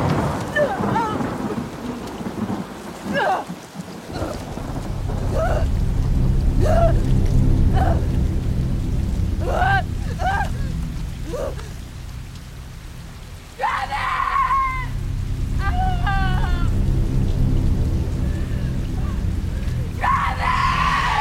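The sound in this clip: Heavy rain falls on grass in a clearing during a thunderstorm, a steady hiss throughout with low rumbling beneath, while a voice cries out intermittently in short, strained bursts.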